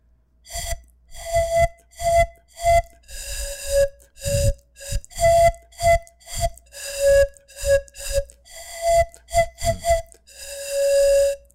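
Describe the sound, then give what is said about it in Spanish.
Breathy whistling notes come from a Venezuelan folk carrizo reed panpipe from San José Guaribe, Anzoátegui, played by two people. Many short, airy tones alternate in a quick, bouncing rhythm, with soft puffs of breath between them. “es parte de un trío de carrizos que se toca entre tres personas. Este es de dos.”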